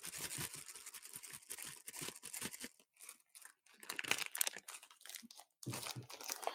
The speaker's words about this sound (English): I have a Cheetos bag next to me.